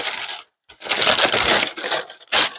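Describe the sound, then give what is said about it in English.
Crinkling, rustling packing paper from a cardboard shipping box being lifted and handled, in a few loud crackly bursts broken by a brief silent gap, with no talking. “I got a piece of packing paper from an Amazon box. I'm going to lift this up”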